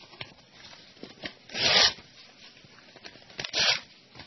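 Paper being torn up by hand, faint, with two louder ripping bursts separated by quieter scattered crackles and rustles.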